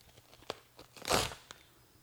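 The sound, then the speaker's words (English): Paper being ripped: a few short crisp tears lead into one longer, louder rip in the middle, then a final quick tear, with no voices. “sound of ripping paper.”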